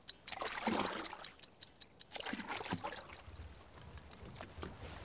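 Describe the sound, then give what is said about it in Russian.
Soldiers row rubber boats out from under a bridge toward the shore. Quiet, evenly spaced paddle strokes knock in a steady rhythm, with faint trickling and splashing water between them. “Из-под моста выплывают резиновые лодки. Гребцы – немецкие солдаты.”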